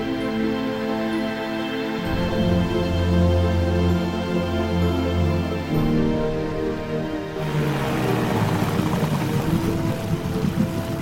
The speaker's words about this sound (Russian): Лодка мчит по бескрайней морской глади.